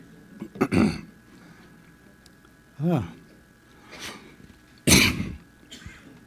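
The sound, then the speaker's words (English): Coughing and throat clearing from someone with a communion wafer caught in the throat during a church service: a few separate rough, breathy bursts spread out with pauses between them, one with a short voiced, rasping edge. “Oh, I'm sorry. I got a little wafer caught in my throat.”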